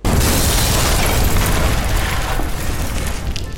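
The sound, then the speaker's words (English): A loud, sustained roaring blast from magnesium-gasoline explosives set off electronically by squibs: a broad rumbling burst that holds for several seconds, then thins slightly toward the end. “I'm going to try this with bigger explosives, magnesium gasoline and silt-based. I'll use squibs to electronically detonate”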